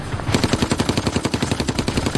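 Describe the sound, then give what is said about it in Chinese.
Machine gun fire from a tower across the Rhine near a bridge during wartime: loud, rapid, evenly spaced shots in one long unbroken burst after a brief quieter start. “忽然，河对岸塔楼上的机关枪猛烈地扫射起来。”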